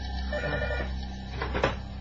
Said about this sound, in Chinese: 系咪电话 响 啊？ 系啊，我听得啦。